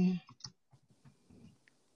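Key clicks from typing a search on a keyboard: a few soft, uneven taps, fairly faint, with a brief louder burst at the start.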